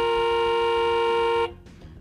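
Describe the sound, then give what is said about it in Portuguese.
A horn blares in one long, steady, loud tone with a bright buzzing timbre, then cuts off abruptly, leaving a brief fading tail over quiet background noise. “Cadê a buzina”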